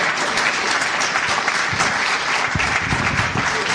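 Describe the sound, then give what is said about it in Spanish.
A church audience applauding loudly during an afternoon service: dense, continuous clapping from many hands, steady and full throughout with no break and no speech. “Si usted lo cree, denle un aplauso fuerte a Dios en esta tarde.”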